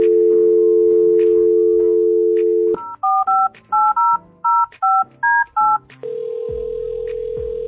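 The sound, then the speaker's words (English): Telephone number being dialed: a steady dial tone, then a rapid series of short keypad beeps at varying pitches, followed by a steady, lower ringing tone. “let's dial that number.”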